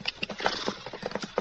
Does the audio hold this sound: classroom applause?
no